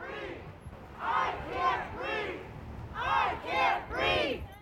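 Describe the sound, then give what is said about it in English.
Roughly 150 protesters in Jackson's Town Square chanting George Floyd's last words at a rally against his death: two rhythmic three-beat chanted phrases separated by a short pause, fairly faint with a low murmur underneath. “All week, we'll be hearing from Jacksonites who on Sunday protested the death of George Floyd. You can hear them right now chanting his last words.”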